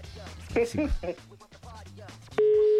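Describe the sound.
An outgoing telephone call, heard first as people chatting in Spanish, then a loud, steady, mid-pitched phone tone that starts at the very end and continues.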